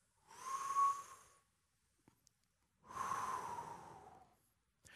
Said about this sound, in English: I want you to take a deep breath. Here we go. Hold it. Exhale. Let's do it one more time.